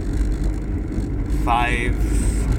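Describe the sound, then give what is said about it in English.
Steady low engine and road rumble fills a car cabin on a drive home from work with the window open, continuous and fairly loud, while a voice briefly speaks over it. “I don't know where to put my phone anymore when I'm recording in my car. I need a place to put it. Let me tell you how I do these. I record these when I'm driving home from work on Monday.”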